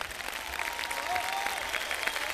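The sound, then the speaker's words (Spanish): Audience applause at a live concert: dense, steady clapping from a crowd that holds an even level throughout, with no break or clear peak. “Un aplauso grande para ustedes.”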